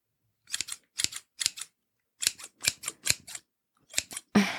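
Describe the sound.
Crisp metallic snips of scissors cutting hair on the top of the head. The short, dry clicks come in brief irregular runs separated by pauses, with no talking.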